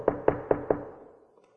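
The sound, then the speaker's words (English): Knocking on a door early in the morning: four firm, evenly spaced knocks, each with a dull wooden thud, after which the sound fades away. “there's knocking on my door.”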